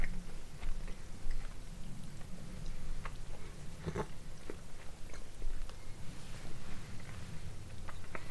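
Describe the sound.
Chewing of salted caramel sweets during a tasting: continuous moist mastication with a few sharper clicks and crunches scattered through, steady and fairly faint, with no talk.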